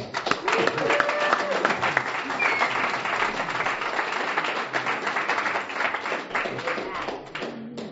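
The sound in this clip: Audience applause welcoming the speaker at a recovery group meeting, dense steady clapping from many hands that tapers off toward the end.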